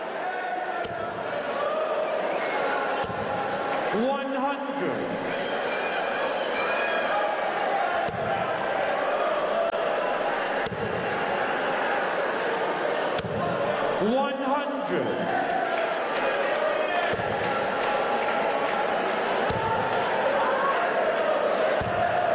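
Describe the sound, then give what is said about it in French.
Crowd noise at a professional darts match, a loud, continuous roar of audience voices throughout, with a man talking over it. “Et le public qui essaie de redonner un peu de voix, redonner un peu d'élan à ce match”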